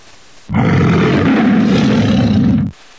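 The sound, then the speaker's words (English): A tiger roars in one deep, sustained, loud, rumbling blast lasting about two seconds, starting abruptly and cutting off sharply, with near silence before and after. “Listen, is that a lion? Let's take a look. Oh no, it's a tiger. It's a big cat.”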